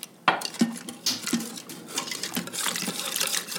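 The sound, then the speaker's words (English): A whisk clinks and scrapes as egg is beaten into hot milk and rice inside an Instant Pot, giving a series of sharp metallic taps followed by a busier, continuous stirring clatter. “And now I'm going to whisk this right into the Instant Pot with the hot milk and rice.”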